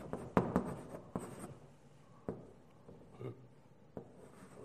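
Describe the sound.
Handwriting scratches out in short, scratchy strokes: a few quick clustered bursts at the start, then sparser single strokes spaced apart, all fairly faint.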